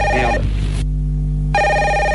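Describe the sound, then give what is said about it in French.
A telephone rings with a bright, melodic electronic ringtone of steady layered tones, loud and alone. It breaks off for a short pause and then resumes. “Ah, en plus, il y a votre téléphone qui sonne.”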